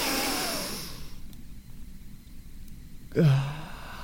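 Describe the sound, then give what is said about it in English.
A big deep breath: a long, breathy rush of air, a quiet pause, then a short voiced sigh on the exhale. “I'm going to take a big, deep breath.”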